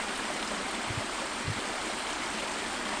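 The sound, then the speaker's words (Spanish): A seasonal stream, fed by snow and rain and dry in the dry season, flows beside a house in a continuous, even rushing wash of water. Two brief low thumps occur near the middle. “Es un arroyo fantasma porque aparece así cuando hay nieve, cuando hay lluvia y en la estación seca desaparece.”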